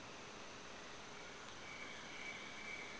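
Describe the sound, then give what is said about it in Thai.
Insects chirp at a forest temple, a faint, steady chirring wash with a thin high whine running through part of it. “เสียงไม่ใช่ปัญหานะแมลงไม่ใช่ปัญหา”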